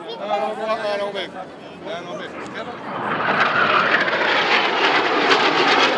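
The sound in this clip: A broad, loud roar of aerobatic display jets sweeping past at an air show swells after brief voices at the start and holds steady and strong to the end.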